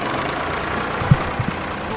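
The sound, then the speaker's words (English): A tractor planting hemp seeds in a field at a university in Louisville gives a steady, even engine rumble. A few faint thumps rise briefly above the drone, and no voices are heard. “That is the sound of a tractor putting hemp seeds in the ground today at the University of Louisville.”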